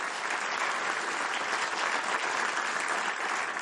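An audience applauds after a cello performance at a family gathering. The clapping is dense and continuous, holding at an even, moderate level from start to finish with no pauses.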